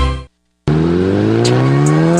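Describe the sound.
An Italika motorcycle engine revs loudly. A brief roar cuts off into silence, then the engine bursts back in and climbs steadily in pitch, with no talk.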